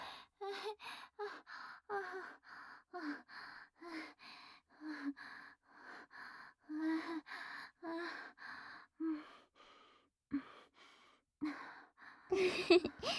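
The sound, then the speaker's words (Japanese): Rapid breathy gasps and sighs from a person breathing heavily, many short bursts in a steady, quick rhythm, some carrying a soft voiced tone, without any speech. “ほら、深呼吸して。深呼吸。”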